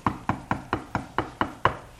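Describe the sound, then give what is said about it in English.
Knocking on a door, eight steady, evenly spaced knocks of equal moderate loudness, each a short sharp rap with a quick decay, with no other sound between them. “he's knocking on the door and his hair's wet with dew and he's come to the door and he's knocking on the door like that”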